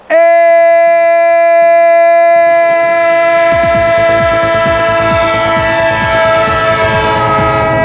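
A loud train sound effect in which a horn holds a steady, sustained chord throughout. A rhythmic clatter of wheels on rails joins partway through and continues under the horn.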